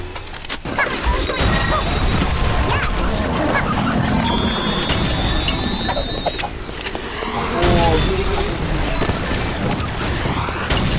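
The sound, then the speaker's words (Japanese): Ships exploding over and over in a video game, a loud, unbroken wall of booms, crashes and rumbling blasts with a thin high whine running through part of it. “船 が爆発しまくってる。”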